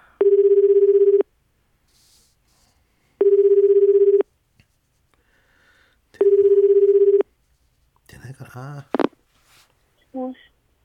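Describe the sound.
Ringback tone of a telephone call ringing out: three steady, low, one-second buzzes separated by about two seconds of silence, followed by a person starting to talk.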